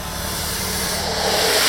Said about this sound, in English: As the song was coming to a climax, the basilisk began hissing louder